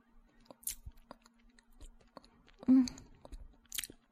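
Chewing while eating snacks: soft crunches and mouth sounds come in a few scattered bites, one louder crunch standing out. The whole passage stays quiet, with no talking.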